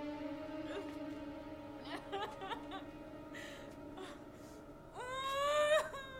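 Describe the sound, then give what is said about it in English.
Woman sobbing in bed in a clinic: soft, halting whimpers and catching breaths, then a louder, higher wavering wail near the end. “Diana finds Marisol sobbing in bed.”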